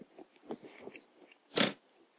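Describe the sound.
Someone bites and chews a pear sprinkled with curry powder. Soft, quiet chewing is punctuated by one louder, crisp crunch near the end.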